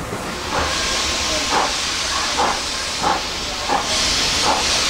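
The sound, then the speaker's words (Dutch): Steady, loud hiss of steam from an enormous steam locomotive, with a series of soft rhythmic pulses rising through the noise at roughly even intervals. “Als je die locomotief ziet, jongen, dat is echt een monster. Echt gigantisch groot. We hebben hier ook een attractie waar je met een karretje onder en langs van die enorme stoomlocomotief gaat.”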